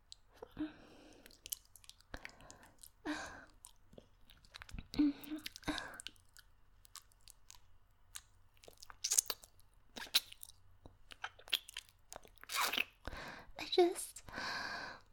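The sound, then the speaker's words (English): Meringue being chewed: many crisp, irregular crunches and soft squishy bites, with faint whispering between them. “meringue one is just so delicious.”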